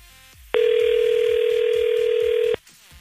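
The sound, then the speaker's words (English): A telephone call is placed and a single steady ringback tone sounds for about two seconds, with near quiet before and after. “See, we're calling up to Carlsbad.”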